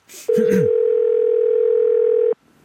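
A telephone dial tone, heard when calling a pizzeria, holds one steady, loud, unbroken note for about two seconds. A short burst of sound comes just before it begins.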